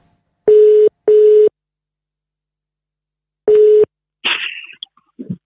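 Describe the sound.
Telephone tones sound as a call is placed: three steady, mid-pitched beeps, two close together and a third after a pause. A few brief, irregular handling noises follow.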